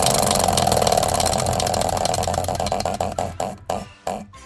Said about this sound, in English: It's up on the wheel. Let's give it a spin and find out next week's right now.